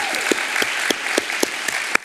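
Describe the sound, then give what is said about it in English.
Audience applause at a church gathering after testimonies, with a broad wash of clapping and steady, rhythmic sharp claps standing out at a regular beat across the short stretch. “So if we can give another round of applause to these ladies.”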